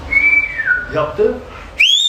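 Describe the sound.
A person whistles quickly and alone: a clear tone slides downward from high to low in a few gliding notes, then a sharp, loud high note rises at the end.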